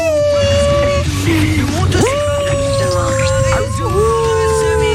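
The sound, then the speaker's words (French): A human voice imitates a miniature pinscher, a small dog of about five kilograms, howling. The drawn-out, wavering whines are loud and continuous, swooping sharply upward partway through and then holding a long sliding tone. “C'est un chien, c'est pas un loup, Scooby-Doo. Scooby-Doo, il fait des bruits comme ça.”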